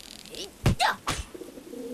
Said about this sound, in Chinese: 看哪，有只鸽子飞过来了。